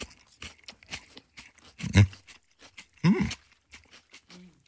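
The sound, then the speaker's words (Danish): People bite into and chew a whole cucumber: two loud, wet crunches stand out among softer, scattered chewing and crunching noises. “Nogle gange har man lyst til at spise en hel agurk. Passer det? Er I klar? Spis her.”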